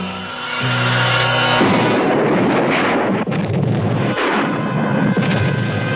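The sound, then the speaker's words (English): A main oil storage tank explodes in a loud, sustained roaring blast with heavy low rumble and crackling noise. It bursts in after a brief low droning tone and keeps surging for several seconds. “The main storage tank of the Japan Oil Company has exploded.”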